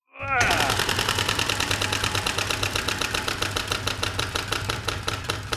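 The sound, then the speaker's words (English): A prize wheel spinning and clicking, its pointer ticking in a rapid, steady stream of sharp clicks that stays fairly loud and continuous from start to finish. “Step up to the wheel. Give it one last spin.”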